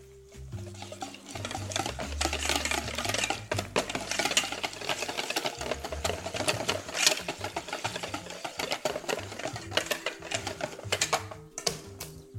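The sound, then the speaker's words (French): A whisk beats fromage blanc with honey in a bowl, making a rapid, continuous patter of many fast clicks and scrapes that runs steadily for the whole stretch at moderate loudness. “On prépare un fouet et on va mélanger le fromage blanc avec le miel.”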